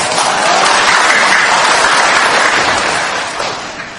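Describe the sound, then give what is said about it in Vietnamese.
An audience at a Buddhist dharma talk applauds, a loud, dense, continuous clapping that holds steady for several seconds before easing off slightly toward the end, with no voices over it. “Không biết vỗ tay này có chịu đi về hay không, hay là vỗ tay này nói rằng là mãi mãi con ở đây hoài đó, phải không?”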